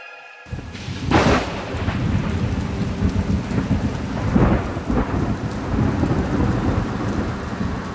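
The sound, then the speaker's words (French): Thunderstorm on a winter night: steady heavy rain hisses throughout, broken by a couple of loud rolling thunder crashes that swell and fade back into the downpour. “C'est par une nuit d'orage de l'hiver 1970”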